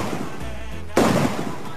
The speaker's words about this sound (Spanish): Un cazador mata a 3 de un tiro de escopeta.